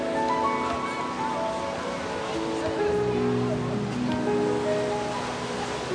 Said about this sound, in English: She gazes out at the water before her. Passing families and other beachgoers, she strolls into the ocean.